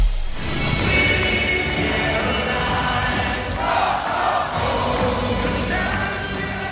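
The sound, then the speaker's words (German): A basketball crowd roars and cheers after a win in the team's first home game of the season, a dense, sustained wall of voices that stays loud and even throughout. “Ah, das klingt immer wieder schön. So klang das nämlich nach dem Sieg im ersten Heimspiel der Saison”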